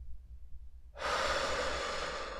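A deep inhaling breath during a guided meditation. A low hum is heard first, then about a second in a long, airy, rushing intake of breath begins and holds steady to the end.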